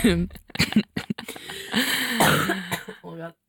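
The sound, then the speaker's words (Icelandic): A woman coughs repeatedly in short, harsh bursts that come close together, loud, mixed with throat clearing and some voiced sounds. “Ég var sko búin að hósta svo þurfti inn allt í einu aftur að hósta.”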